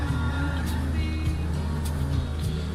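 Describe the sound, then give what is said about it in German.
A car pulling away in a video game, a low, steady engine rumble with a few brief bursts of noise over it, fairly quiet overall. “Ich weiß nicht, warum der immer mit quietschenden Reifen losfährt, ey.”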